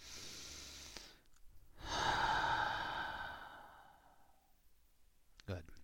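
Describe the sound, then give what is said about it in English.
A slow, deep breath is taken, and the long, airy exhale trails off gradually over a few seconds before a brief click at the end. “So, allow yourself to take a big deep breath.”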